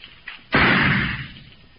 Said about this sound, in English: Now watch how a 38 gun will fire a 32 bullet. I'll put it on the baseboard over there.